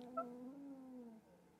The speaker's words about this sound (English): If you heard a cat screaming, that was my stomach. That was super weird.